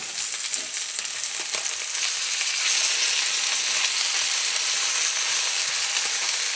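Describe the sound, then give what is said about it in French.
Meat sizzling as it browns in a frying pan, a bright, continuous crackling hiss that stays steady and fairly loud throughout, with no voices. “Alors là, la viande a commencé à cuire, à, bien dorer de l'autre côté.”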